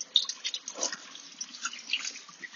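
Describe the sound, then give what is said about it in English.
Faint running tap water splashes as hands are washed after stone clearing, with irregular trickling and drips throughout. “Just getting to wash my hands now, and it's been quite a worry for me”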